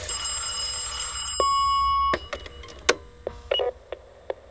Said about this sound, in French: J'ai laissé le répondeur se déclencher.